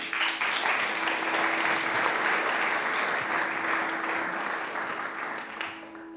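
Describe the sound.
Audience applause welcoming a speaker, a dense, steady clatter of many hands clapping together that holds for about six seconds before thinning slightly at the end.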